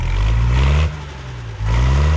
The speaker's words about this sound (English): Let's get the tractor started up.